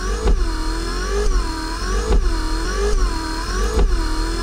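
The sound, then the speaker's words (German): Squeaky car windscreen wiper, the harsh, unpleasant-sounding kind, sweeps back and forth in regular strokes about a second apart, each pass a whining, chattering squeal over a low rumble. “Und zwar erstens hast du einen Scheibenwischer uns geschickt, der nicht so schön sich anhört und dann einen Scheibenwischer, der sich schön anhört. Hören wir doch erstmal den, der sich nicht so gut anhört.”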